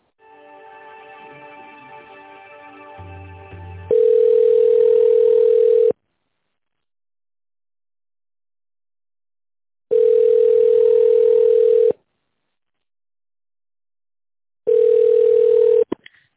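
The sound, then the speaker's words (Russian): Ringback tone sounds on a telephone line while an office call is being transferred to a colleague: after a quieter, mixed lead-in, three long, steady beeps ring out, separated by silent gaps, with the last one cut short. “С Лилией, сейчас переведу вас на нее.”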